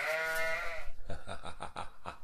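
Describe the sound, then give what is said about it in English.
Goats bleat: one long, strained, nasal cry, then a quick, quavering bleat that pulses in rapid tremolo, both loud and alone with no talk. “That's exactly how I sound, man. I can harmonize with these goats.”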